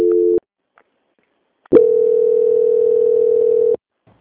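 Telephone tones during a bank call transfer: a short two-pitch tone, a pause of silence, then one loud, steady, unbroken tone lasting about two seconds that cuts off abruptly.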